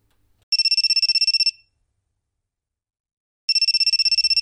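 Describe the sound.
A telephone rings with a high, rapidly pulsing electronic trill in two bursts separated by a silent pause, the second burst cut off at the end, loud and alone.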